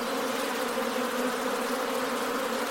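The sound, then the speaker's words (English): Honeybees buzz during a hive transfer as frames are lifted into a new hive, forming a dense, steady, loud drone of many wings that holds constant throughout. “Amazing sound, isn't it? I know. All right, bees, it's okay.”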